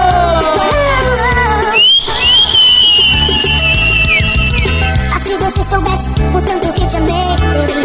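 A whistle is blown over loud live party music at a crab festival. One shrill, sustained tone wavers for about three seconds midway through, above a steady thumping beat.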